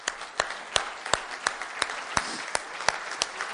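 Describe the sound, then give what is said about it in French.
An audience claps in a steady rhythmic beat to acclaim the Lord, each crisp hand clap standing out distinctly over a faint background, with no talking. “Ah ben, allons-y, acclamons le Seigneur.”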